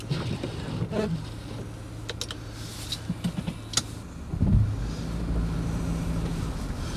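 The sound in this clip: A car engine drives uphill over a thin layer of snow, a steady low rumble with a few faint knocks, swelling louder and rougher in the latter half.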